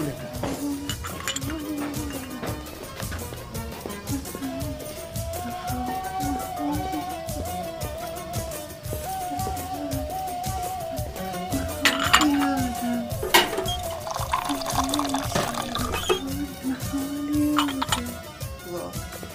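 Light clinks and clatter of cups and dishes as two cups of tea are poured, with scattered sharp metallic chinks throughout and a busier, louder stretch just past the middle.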